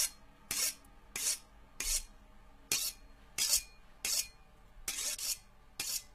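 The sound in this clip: A knife is being sharpened, giving a quiet, regular series of many rasping strokes evenly spaced in a steady rhythm, heard alone.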